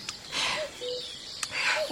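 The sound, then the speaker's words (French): Birds chirp with a few faint, short tonal calls scattered over a busy, noisy outdoor background. “Fou ce qu'il y a comme oiseau ici.”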